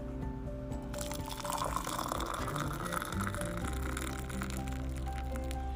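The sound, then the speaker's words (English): Nescafe coffee being poured, a steady, fairly faint trickle and splash of liquid that carries on throughout. “Je t'aime beaucoup le café, je t'aime beaucoup Nescafe, cause this is the sound of heaven.”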